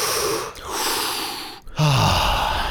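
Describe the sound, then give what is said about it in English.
A deep breath taken slowly: a loud, breathy inhale of rushing air, a short pause, then a long, full exhale with a low, slightly voiced sigh at its start. “So here's what we want you to feel, and we can all do this in unison. Take a deep breath.”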